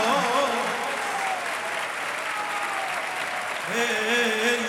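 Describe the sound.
Audience clapping at a gathering: even, dense applause throughout, with a voice heard briefly at the start and again at the end.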